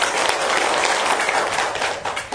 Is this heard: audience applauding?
yes